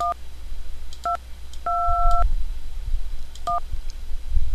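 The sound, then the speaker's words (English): Telephone keypad touch-tones beep as a number is dialed, four beeps at uneven intervals with one held noticeably longer than the rest, over a low, rumbling background. “Guess I'll dial then.”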